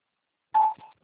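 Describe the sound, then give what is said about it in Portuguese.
Short telephone keypad tones as digits of an ID number are entered at an automated phone menu prompt: one louder, longer electronic beep, then a softer shorter one, and a faint low thump. “Por favor, digite o número do seu CPF com 11 dígitos para que possamos recuperar sua ligação se necessário.”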